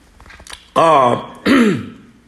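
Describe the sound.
Throat clearing by someone pausing mid-speech: two loud, voiced, gruff bursts with a rough, harmonic edge, the second slightly lower and falling, preceded by a faint rasp.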